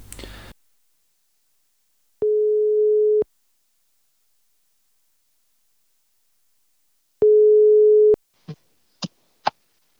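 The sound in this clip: Telephone ringback tone heard while calling someone: two long, steady, mid-pitched tones about five seconds apart, loud and alone, then three short sharp clicks as the line connects, with a brief burst of noise at the very start.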